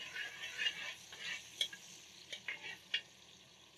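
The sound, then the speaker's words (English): Ginger frying in oil in a pan gives a soft, steady sizzle and hiss. A few light clicks and scrapes of stirring rise above it, and the whole sound stays fairly faint. “I like to start off with a bit of ginger. I still give the oil a little perfume, a little flavor.”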